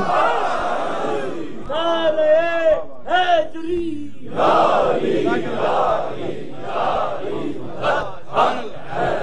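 Crowd shouting in unison in response to the Naara-e-Haidari slogan during an Urdu religious sermon. Loud, full-throated group cries rise and fall in a few strong surges over about nine seconds.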